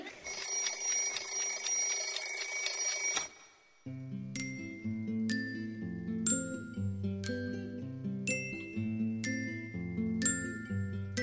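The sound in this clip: An alarm clock rings loudly for about three seconds to open a children's morning radio show. After a brief pause, a bright tinkling tune of chime-like notes follows.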